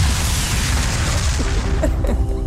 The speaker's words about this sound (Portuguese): Daí o nome e daí estas explosões todas, é sempre a explodir. Até porque uma bomba explode apenas uma vez, por isso, se é para explodir, que seja em grande.